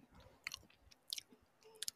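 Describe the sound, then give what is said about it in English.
Someone chews a cookie with a biscuity shell and a melted-chocolate-chip interior. Soft mouth sounds are broken by three sharp, crisp crunches, spaced irregularly and fairly faint overall. “Can you hear me chewing super loudly? It's not it's not too loud, but yeah, you can definitely hear it.”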